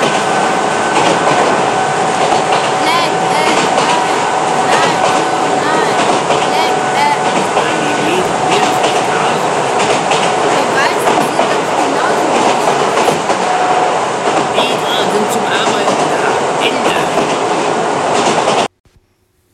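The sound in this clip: Rail carriage clatter during a train ride: a loud, steady rumble with rattling wheel and track noise that runs without a break, then cuts off abruptly near the end.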